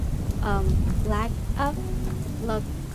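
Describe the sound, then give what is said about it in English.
Rain falling in a steady, dense hiss with a low rumbling undertone, while a few brief voiced sounds rise over it. “It's been raining a lot, but you know, I've been trying to do my best to record on that same day where it's raining.”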